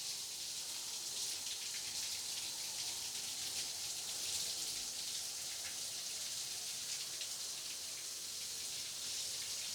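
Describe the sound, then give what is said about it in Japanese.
Shower water running over a body, a faint, continuous hiss of spray and splashing droplets that stays even throughout, with no voices. “お腹の方へシャワーを上げていくよ。そして、胸の方を濡らしていく。”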